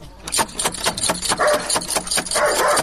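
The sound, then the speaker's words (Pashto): Knocking on a wooden door at a house: many rapid, hollow knocks in an uneven rhythm, fairly loud, over a low rumbling background. “ته دروازه ور بټه کوه، وبه ګورو چې په کور کې شته که نه.”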